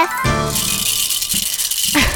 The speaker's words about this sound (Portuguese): É hora de chocalhar pra valer. No ritmo tradicional.